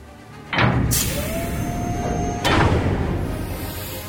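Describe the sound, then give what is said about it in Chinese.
A submarine hatch door is opened with a heavy thud, followed by a thin sustained squeal and a second thud, all over a constant background rumble. “康赛留下教授照顾受伤的人，然后去为兰奈德打开舱门。”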